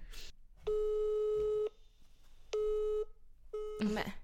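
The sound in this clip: A telephone busy signal sounds when calling, a buzzy, harmonic-rich tone in three bursts: one long, then two shorter ones, with a brief rough noise at the end.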